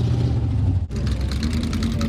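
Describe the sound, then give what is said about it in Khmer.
Vintage racing car engines drone at a fair in Adams County, Pennsylvania, a loud, steady mid-pitched roar that cuts out sharply for an instant near one second and then resumes at full strength. “នេះជាការប្រណាំងរថយន្តបុរាណនៅកន្លែងតាំងពីពណ៌មួយនៃស្រុក Adams រដ្ឋ Pennsylvania”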